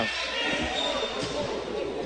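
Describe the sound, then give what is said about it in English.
A basketball bounces on the court during a game, with several dull, low thumps in a loose rhythm under the steady commentary of a play-by-play voice. “Fashaw bounces it now to Leonard in the corner.”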